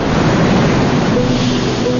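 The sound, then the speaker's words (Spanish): Ocean waves on the Pacific shore make a loud, continuous roar of surf and wash, rushing steadily throughout with no distinct single break and no voices. “Plano general de la orilla del mar.”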